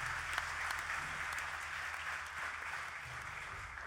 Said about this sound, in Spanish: Un gran aplauso para él